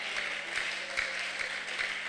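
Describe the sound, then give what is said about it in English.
Church audience clapping as an amen during a sermon, a fairly quiet, steady rhythmic beat of hands over a low constant hum. “You should be clapping as your amen and shouting.”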